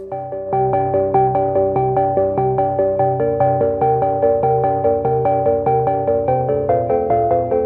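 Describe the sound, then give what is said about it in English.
Suspenseful music plays alone: a steady pulse of repeated, sustained tonal notes over a low drone, with a ticking rhythm running evenly throughout. “I'll play some suspenseful music, and then we'll have a listen to this guy”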